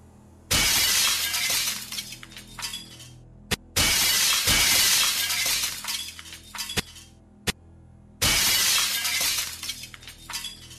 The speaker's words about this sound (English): Virat pulled a steel pipe from the median and smashed in the glass of the lady's imported car.